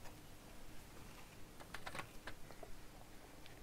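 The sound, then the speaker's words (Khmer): Knife cuts through a bell pepper on a cutting board as it is sliced into three pieces. A few faint, crisp clicks cluster together over a low, steady background hiss. “ហើយបន្តមកទៀតគឺយើងចិតម្ទេសផ្លោកម្ទេសផ្លោកយើងចិតវាជា3កំណាត់អញ្ចឹងមកដូចហ្នឹង”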